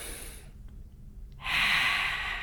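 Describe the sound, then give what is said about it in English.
Long, deep breathing, in through the nose and out through the mouth. A soft breath fades away, a short pause follows, then a long, airy exhale swells and holds to the end. “I just breathe long, deep breaths in through my nose, exhale through my mouth. I make them normal, but they're long.”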